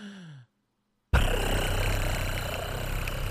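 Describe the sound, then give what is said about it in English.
Wheel-spinning sound effect: after a brief voice and a short silence, a loud, sustained whirring rattle with a deep rumble starts abruptly and holds steady to the end. “we're gonna need like a sound effect. Like a wheel spinning sound effect. Here we go.”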